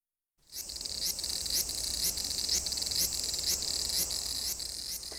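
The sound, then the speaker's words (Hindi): An abura-zemi cicada, the common cicada found across Japan, calls: after a brief silence a loud, continuous, sizzling high buzz begins and holds steady, with regular faint pulses running through the drone. “इनमें जो है अबरा Jamie Jhingar की तादाद Japan में झिंगरों की कुल आबादी का तकरीबन निसफ हिस्सा है। जेमी झिंगर जापान भर में पाया जाता है और रोजमर्रा जिंदगी में कमोबेश हर एक से इसका वास्ता पड़ता है, तो आइए इसकी आवाज सुनते हैं।”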